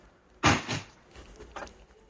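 A window is shut to block outside noise: a sharp bump, then a second softer knock, followed by a few faint clicks.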